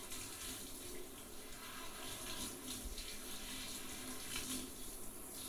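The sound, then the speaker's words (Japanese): Warm water running steadily during a hair wash, a soft, even hiss and splash that stays faint and unchanging throughout, with no voices. “まずは髪の毛洗いましょうね。目つむっていてください。”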